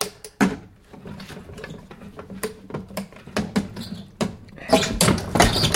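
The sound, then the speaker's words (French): A dagger forces open a small locked chest, making metallic clicks, scraping and ratcheting knocks in irregular bursts that grow louder and denser toward the end. “Ouvrez donc ce coffret. Je n'ai pas la clé. Ne vous en faites pas. Ma dague est solide.”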